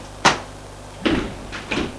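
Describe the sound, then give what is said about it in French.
A door swinging shut into an entrance hall: one sharp knock, followed by a few softer clunks and rattles as it settles, with quiet between. “Elle a fermé la porte.”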